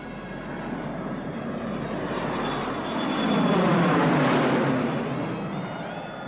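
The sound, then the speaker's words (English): An airplane lifts off and passes overhead, its engine roar a dense, steady rush that swells toward a peak midway and then eases only slightly, with no voices. “The plane lifts off and flies overhead.”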